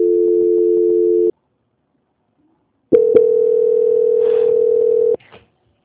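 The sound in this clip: A telephone tone plays while a call is being transferred: two long, steady, mid-pitched tones separated by about a second and a half of silence, with a few sharp clicks at the start of the second tone and a brief faint blip after it.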